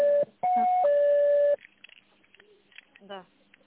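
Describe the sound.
Electronic telephone tones sound while an office call is transferred: a short steady beep, a brief gap, then two sustained tones at different pitches. Faint, broken talk follows.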